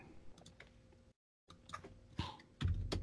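Faint typing on a computer keyboard: soft, irregular clicks and taps, a brief silent pause, then more scattered keystrokes ending in a slightly louder thump.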